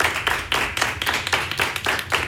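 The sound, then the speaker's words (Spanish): An audience in a radio program studio applauds to welcome a guest. The clapping comes in quick pulsing waves of many hands, a busy and fairly even rhythm lasting a little over two seconds. “Un aplauso para Valentina.”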